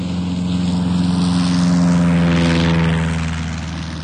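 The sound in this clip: A propeller plane takes off from a runway, its engine a loud, steady droning hum with strong low harmonic bands. It swells louder toward the middle, then eases slightly by the end.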